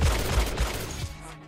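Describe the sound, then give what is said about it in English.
Gunfire in a rapid, dense volley, heavy booming shots running together into a continuous roar before cutting off abruptly near the end. “Shoot the wings off the flies. Either you shoot or I do.”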